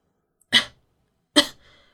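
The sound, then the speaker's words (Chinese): Two short coughs from a feverish patient kept in isolation at Xuanwu Hospital with a shadow on the lungs. The coughs are brief and separated by a short pause, with the second one trailing off faintly. “我咳了两声，努力维持着平稳。”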